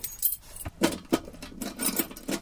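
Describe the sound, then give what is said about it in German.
Metallic key jangling and clicking as a key works the lock of a locked cash box, a few sharp scrapes and rattles spread over a couple of seconds, with no voices. “Ach, endlich ein Schlüssel, der passt.”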